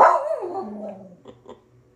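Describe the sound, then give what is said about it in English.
A dog barks indoors: one loud, drawn-out bark-like yelp that trails off and falls in pitch, followed by a few faint, short sounds. “Please excuse my dog.”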